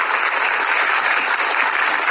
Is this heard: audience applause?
yes